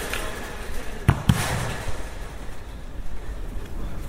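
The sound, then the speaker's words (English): A football kicked during a match on a damp common: two sharp, hard thuds in quick succession, standing out from a steady wash of outdoor background noise. “Okay, so I'll just walk past the football match for a minute. Teams in blue and red.”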